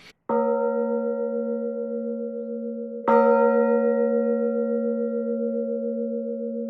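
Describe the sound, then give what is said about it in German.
A baroque signal bell cast in 1659 is struck twice, each strike ringing on in a long, sustained tone whose out-of-tune partials beat and waver restlessly. “Wie wir hier zum Beispiel an dieser äußerlich sehr, sehr schönen Zeichenglocke aus dem Jahre 1659 hören können.”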